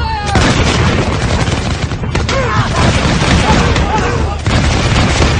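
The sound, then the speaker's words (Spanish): Arquebus fire in a battle: a loud, dense and continuous crackle of overlapping shots and booms that fills the whole stretch without pause. “los nuestros alzaron sus armas, apuntaron con mucho tiento antes de abrir fuego.”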